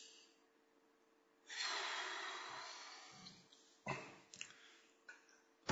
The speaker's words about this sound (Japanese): はい、深呼吸。